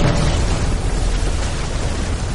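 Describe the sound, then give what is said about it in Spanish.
Battlefield explosion shaking the ground and throwing debris: a loud, dense roar of rumble and crackle that holds steady for the whole short stretch without a break, with no voices. “una explosión sacude el suelo, lanzando escombros por encima de sus cabezas.”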